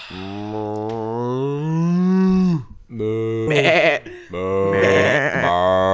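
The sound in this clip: People imitate farm animals with their voices, including a turkey: long, sustained bleating and mooing calls give way to loud, wavering, warbling cries, heard alone without ordinary talk.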